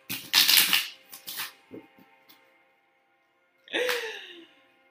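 Tarot cards being shuffled, heard as a few brisk, papery bursts of riffling and slapping separated by short pauses, with a longer gap before the final flurry.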